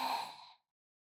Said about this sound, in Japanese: 一旦深呼吸しましょう。深呼吸をすれば、少しは冷静になれます。はい。吸って、